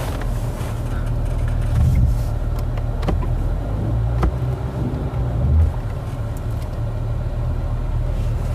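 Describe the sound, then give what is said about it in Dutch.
Low, steady engine rumble of a car driving into a shed, with a few sharp knocks and clicks over the continuous hum. “we rijden nu een loods in.”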